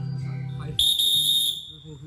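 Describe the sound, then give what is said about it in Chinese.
A whistle blown on a mountain climb: one long, shrill, steady blast, loud and held for well under a second, with low, murmuring background sound before and after it. “我就给你吹哨子啊”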